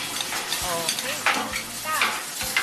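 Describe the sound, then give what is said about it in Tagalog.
A stir-fry of bean sprouts with oyster sauce, soy sauce and pepper sizzles steadily in the pan as a utensil scrapes and stirs it in a few quick strokes. “Then, haluin lang din po natin. Halo-halo. Mabilis lang yan eh. Kasi mas mabilis maluto yung togi, di ba?”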